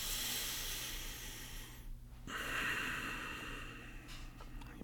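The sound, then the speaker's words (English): A deep breath is drawn through the nose, a faint, airy, steady hiss with a brief dip partway through, quiet and alone without talk. “if you learn to breathe really deeply through your nose,”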